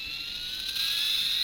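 A small comic-rocket keychain that doubles as a flashlight gives off a faint, steady, high-pitched electronic whine, like a toy launch effect, with no voices.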